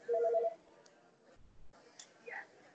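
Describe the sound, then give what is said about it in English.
A phone text-message notification: a quick run of several soft electronic beeps at the very start, followed by faint, scattered small sounds. “adam just texted me to ask you something”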